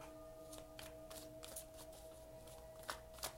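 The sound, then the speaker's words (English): Tarot cards being shuffled and drawn make soft, faint flicks and slides. A few of these quick bursts, with two slightly sharper ones near the end, sit over a steady low background hum. “Let's get a few more cards.”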